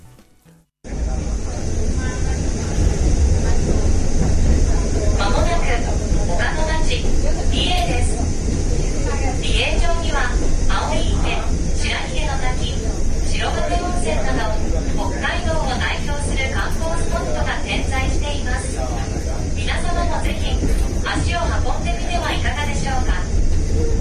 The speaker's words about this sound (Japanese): このフラノ BA の6号1号が BA に到着する時の、放送を、ちょっと聞いていただきたいというふうに思います。